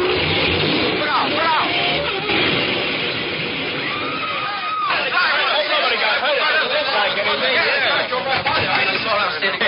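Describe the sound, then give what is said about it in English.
A taxi cab accelerates away in pursuit of another cab, its engine rising under continuous busy voices and chatter that run through the whole passage. “Follow that cab. There's $20 in it for you if you catch it. Okay, for $20, I'll drive you over that cab. Watch this, mister.”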